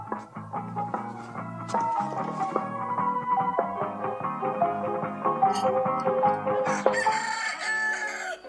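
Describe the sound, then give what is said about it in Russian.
Chickens cluck inside a wooden village hut, and a rooster crows among them. Many clucks and calls run on continuously at a fairly even, moderate loudness from start to end. “По избе ходят куры.”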